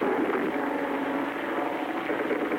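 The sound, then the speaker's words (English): Japanese bomber aircraft pass overhead during an air raid on Manila, a dense, steady engine drone that holds at an even loudness throughout, with no voices and no separate bursts. “Manila has just been bombed. Japanese bombers. And now, flak is coming up in the sky.”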